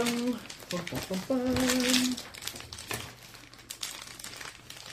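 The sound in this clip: Sheets of paper rustle and crinkle as someone hunts through them for notes, with a voice briefly heard over the irregular crackling bursts.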